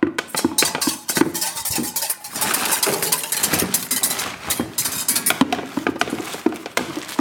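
Bread being pushed into the oven of a bakehouse, with busy clattering, scraping and rattling knocks throughout, irregular and dense, over a low steady rumble.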